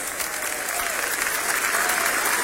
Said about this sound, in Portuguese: Mais forte os aplausos para Deus.